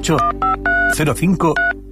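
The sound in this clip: Telephone keypad dialing tones for a restaurant booking number, a quick series of short, bright electronic beeps mixed with a voice speaking.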